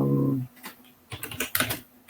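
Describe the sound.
Computer keyboard typing as a message is entered into a chat, a quick scatter of light clicks and taps after a brief voice at the start.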